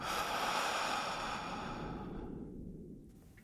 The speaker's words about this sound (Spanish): Inhalando por tu nariz. Exhalando por la boca.